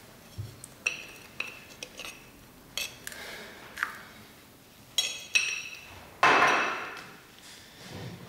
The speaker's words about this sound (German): Füllen Sie 50 Gramm der Proben in den Tiegel.